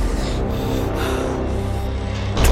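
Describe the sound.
Heavy, rasping breaths of two men catching their breath after running from a patrol, in a 2017 film. The loud panting comes in a few rough cycles over a dense, noisy background, growing sharper at the very end.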